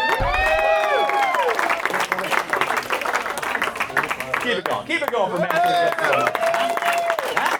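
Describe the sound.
An audience applauds a comedian at a comedy show as a round of sustained, dense clapping and some cheers. A loud voice talks over the applause for most of its length.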